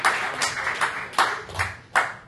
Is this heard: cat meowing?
no